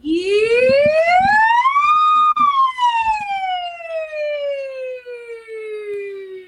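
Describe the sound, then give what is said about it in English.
A singer's voice imitates a siren in a vocal exercise, a smooth continuous glide that climbs steadily in pitch for about two seconds and then slides slowly back down, loud and sustained, with a few soft low knocks early on. “that's definitely a siren. Yeah, yeah, yeah. So that's a siren.”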